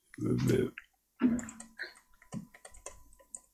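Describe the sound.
Typing on a mechanical keyboard with non-clicky, non-tactile switches: after brief talk, a quick run of soft, muted key clacks follows in an uneven rhythm.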